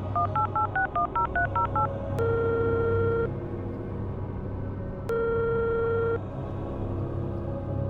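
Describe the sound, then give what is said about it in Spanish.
A telephone number is dialed with a quick run of short keypad beeps, followed by two long, steady ringing tones separated by a pause. “Así que, sin pensarlo, le marqué de inmediato.”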